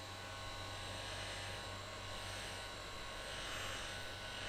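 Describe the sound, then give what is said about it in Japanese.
A hair dryer blowing on someone's hair gives a continuous, even whoosh of airflow over a low motor hum, holding a constant level throughout with no talking. “それじゃあ乾かしていくわね。”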